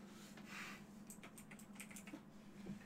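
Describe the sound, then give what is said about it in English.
Fingers type on a computer keyboard in a quick, irregular patter of light clicks, very faint and heard alone. “So, I'll just type it out for you.”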